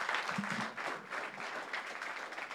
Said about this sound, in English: So would you put your hands together and welcome my good friend, Pastor Lee Stephenson.